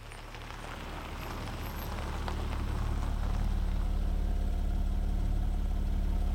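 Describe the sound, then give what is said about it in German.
A Mercedes car engine runs with a steady low rumble. It grows louder over the first few seconds, then holds an even, throbbing idle to the end. “Ich stellte den Mercedes im Moorweiler ab und näherte mich der Scheune zu Fuß.”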